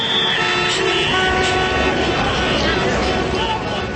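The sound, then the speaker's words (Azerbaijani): Car horns honk in a traffic jam on the road from Tbilisi Avenue into Baku, with tones sounding over a dense, continuous roar of vehicle engines. “İndilik isə Bakının bir hissəsində yaranmış tıxacdan danışım. Tiblis prospektindən şəhərə gedən yolda böyük tıxacların olması çoxlarına tanışdım. Maşınların siqnallarının səsi ətrafı başına götürüb.”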